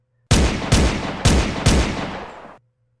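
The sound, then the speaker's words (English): Police gunfire on a quiet suburban street: four loud, booming shots in quick succession, each with a long rumbling tail that runs into the next before fading out. “The police were shooting.”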